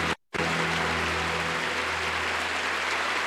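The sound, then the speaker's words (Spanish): Church audience applauding in praise, a dense, steady wash of many hands clapping that holds evenly after a brief dropout at the start, with low sustained tones beneath. “Denle un aplauso al Señor por la vida de Susi.”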